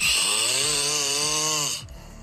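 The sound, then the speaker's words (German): A loud, buzzing snore from a man, recorded by his partner: one long rasping breath with a steady droning tone that cuts off abruptly near the end. “der Woche haben sie uns wirklich erstaunliches Material mit Schnarchgeräuschen ihres Partners geschickt.”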